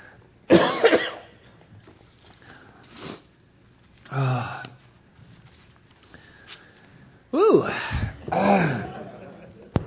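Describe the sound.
Coughing after something went down the wrong pipe, in a few harsh, separate bursts mixed with throat clearing, with quiet gaps between them.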